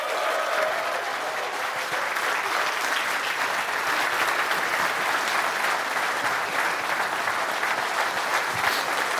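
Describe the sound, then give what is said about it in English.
Enthusiastic audience applause welcomes Irish football great John Giles to the stage at a tribute event, a dense, loud, steady wash of clapping that holds for about nine seconds with no talk over it. “please, let's welcome to the stage and give it up for the great John Giles”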